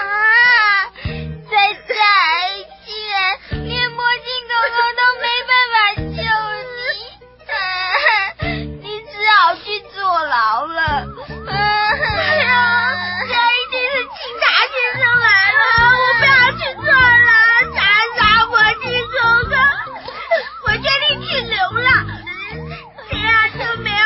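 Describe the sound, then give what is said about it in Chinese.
Two small children cry and wail together in high, tremulous sobs that rise and break, with loud bursts and short gasping pauses continuing for the whole stretch. “好了，你们两个小家伙别哭了”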